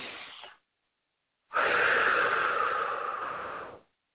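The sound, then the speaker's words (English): Deep breaths in through the nose and released during a grounding exercise. A short airy breath is followed by a longer, steady rush of breath lasting about two seconds, with no talking. “He wants you to take 3 breaths in through your nose, hold it for a second, and release what no longer serves you.”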